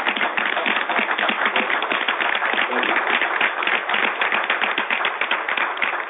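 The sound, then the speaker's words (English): Audience applause for Dr. Josie Johnson: dense, even clapping from many hands continues without a break, a steady crackling patter at a constant level from start to finish. “I'd like to acknowledge Dr. Josie Johnson here in the audience. Yeah. Give her a hand.”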